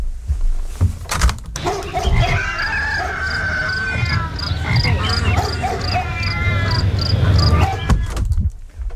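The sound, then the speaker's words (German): A dense outdoor chorus of animals, including crickets and a dog, pours through an open studio window: regular high chirps repeat steadily over assorted croaking and barking calls. “Furchtbar, welchen Krach die aufdringliche Fauna hier verbreitet.”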